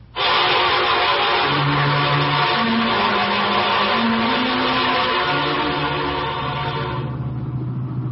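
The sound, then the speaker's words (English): A car driving off, its engine a loud, steady drone whose low note climbs in steps before easing slightly at the end. “Phil left Ellen, he drove toward the city center”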